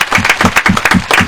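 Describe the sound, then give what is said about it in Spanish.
Audience at a stage show applauding a singer, brisk and loud rhythmic clapping in a short, dense burst. “Aplaudan, por favor. Bien, bravo.”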